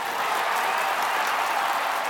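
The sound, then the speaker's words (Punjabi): An audience applauds loudly in honour of a late music teacher during a Punjabi music performance by three singing brothers, a dense, even wash of clapping that holds steady throughout. “ਉਹਨਾਂ ਦੇ ਨਾਂ 'ਤੇ ਇੱਕ ਵਾਰ ਜ਼ੋਰਦਾਰ ਤਾੜੀ।”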